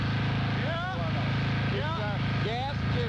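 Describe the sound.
A gas generator's engine runs as a steady, low droning hum with a constant, even level throughout, while people talk over it.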